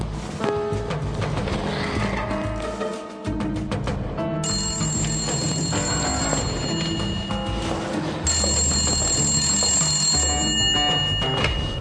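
A telephone rings in bright, repeated electronic trills that start partway through and return later. The ringing sits over a continuous bed of background music.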